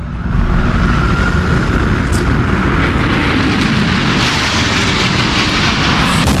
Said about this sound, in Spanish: Así sonaba el impacto de ese avión contra la segunda torre.